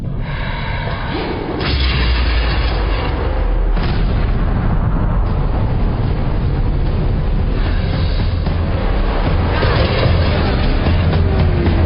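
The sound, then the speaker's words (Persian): Explosion with a deep, rumbling roar that starts abruptly after a brief quieter moment and then continues loud and steady, a dense wall of low booming noise lasting about ten seconds. “آه زلزله؟ نه نه نه نه انفجاره.”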